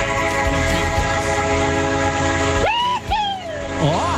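A train horn, sent by a train driver, blows a long, loud, steady blast with rich harmonics over rumbling rail noise, then gives way near the end to brief gliding, wavering tones.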